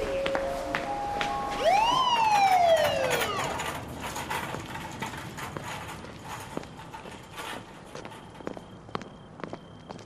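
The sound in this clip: An ambulance siren gives one brief wailing sweep, rising and then falling, over steady background noise with scattered knocks that continue after the wail fades.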